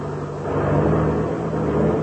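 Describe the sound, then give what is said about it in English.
An airplane engine drones steadily as the plane taxis across a field, a continuous low, even hum with no talk over it. “Well, we'll turn and taxi over beside it.”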